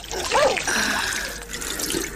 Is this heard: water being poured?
yes